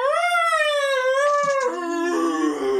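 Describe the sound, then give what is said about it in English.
A human voice imitates a monster's death scream with a long, loud, howling wail that holds high and slowly sinks in pitch, then breaks into a rougher, lower groaning tone near the end. “Did you notice the fucking scream that fucking thing had when it died? Like, it turned into, like, blue fire. You just hear it going, like,”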